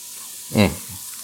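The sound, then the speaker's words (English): Cabbage sautéing in butter with salt gives a steady frying hiss, broken by one short, louder burst midway. “you could do a lot worse than just sautéing up some cabbage and butter with some salt”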